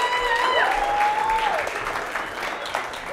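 A church audience applauds and cheers, a dense, sustained wash of clapping with a shrill whistle early on that gradually eases toward the end.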